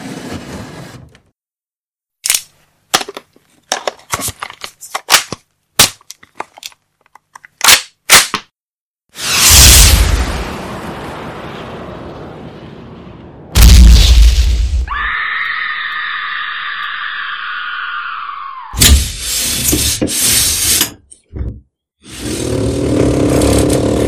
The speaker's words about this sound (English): I just got a new M72 66mm anti-tank LAW rocket launcher.